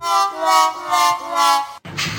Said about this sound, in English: I need the pathetic loser sound effect because you're going to love this.